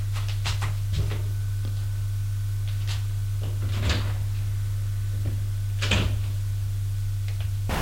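A door is handled and shut, giving a few scattered clunks and knocks, faint and sharp, over a steady low hum.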